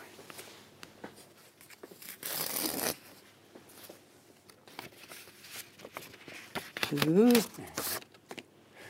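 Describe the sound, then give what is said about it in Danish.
A small paper envelope is torn open in one short, bright ripping burst, with soft rustling and brief voice sounds around it. “En lille kuvert her, ja. Som jeg gerne vil have, at du skal åbne.”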